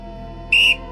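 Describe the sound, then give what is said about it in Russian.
A referee's whistle sounds at a football match as one short, shrill, high-pitched blast lasting about a quarter second, loud over a low, steady background hum. “Рефери вновь свистнул и поставил мяч.”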